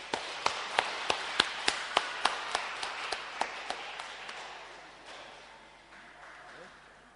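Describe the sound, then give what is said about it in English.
Clapping as an audience welcomes a pastor at a church service. Many sharp, evenly spaced claps ring out loudly at first, then fade and thin after about four seconds into a low, soft wash. “Why don't we welcome a pastor and give him a big hand before he comes here?”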